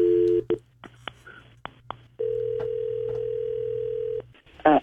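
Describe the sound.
A telephone call being placed: a dial tone, then scattered clicks and a few short key tones, then one steady ringing tone lasting about two seconds. A voice is heard briefly at the end.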